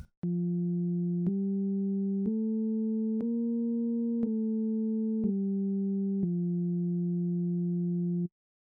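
A pure sine tone with a second wave at exactly twice its frequency plays a stepped sequence of seven notes, rising over four steps then falling back over three, the final note held longest, each change marked by a soft click.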